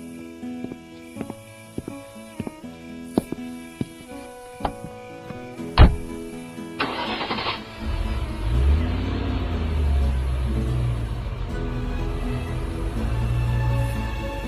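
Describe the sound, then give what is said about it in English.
A car engine starts after a series of sharp clicks and a loud knock, then settles into a steady, low, rough rumble that carries on to the end, with no voices. “I drove down to Stingray Point”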